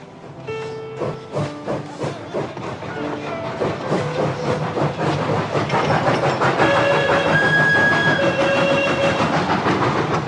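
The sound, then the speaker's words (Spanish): A train runs on rails with a rapid, rhythmic clatter of wheels that grows gradually louder. Sustained high squealing tones sound toward the end. “Otro tren más.”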